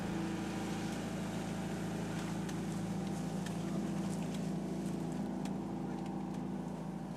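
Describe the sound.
A harvesting machine drives slowly through an aronia berry field, giving a constant low engine rumble with scattered light rattling clicks above it and no talk.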